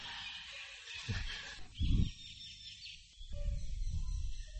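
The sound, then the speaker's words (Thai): Birds call during a monk's talk to a gathering: faint high chirps and tweets over a steady low rumble of background noise, with a few duller knocks mixed in. “สังเกตไหมพวกหนึ่งใจไปอยู่กับนกรู้สึกไหม”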